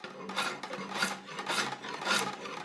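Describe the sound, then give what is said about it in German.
A carving knife shaping the grip of a wooden bow, giving a steady run of rasping, scraping strokes in an even rhythm, with no talk. “Dann wird das Griffstück rausgearbeitet. Das wird alles eigentlich mit dem gleichen Werkzeug gemacht. Es reicht eigentlich das Schnitzmesser vollkommen aus.”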